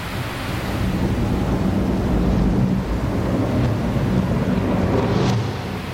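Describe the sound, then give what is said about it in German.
Tropical rainstorm in the Amazon rainforest: a steady, loud roar of heavy rain and wind with deep rumbling thunder rolling underneath, sustained without a break. “Dazu tobt der Sturm und der Regen gießt herab, den man eigentlich nicht mehr Regen nach unseren zahmen Begriffen nennen kann. Der Himmel bricht zusammen.”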